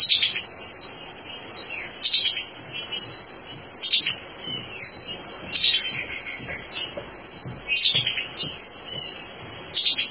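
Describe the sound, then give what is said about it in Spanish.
High, thin, buzzy song of a migratory bird wintering on the Bogotá savanna in Colombia, a bird moulting into plumage with red and yellow patches. A steady shrill trill carries throughout, with sharper accented notes every two to three seconds and no voices. “Mientras está en Colombia, está cambiando su plumaje, o puede encontrar uno un individuo con parches rojos y amarillos, como los mismos colores de Bogotá. Y entonces esta ave suena así.”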